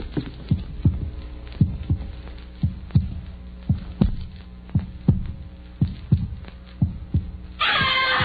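A heartbeat heard through a stethoscope gives a steady, fairly quick series of deep, soft thumps over a low hum. Many beats pass before a sudden burst of hiss cuts in at the end.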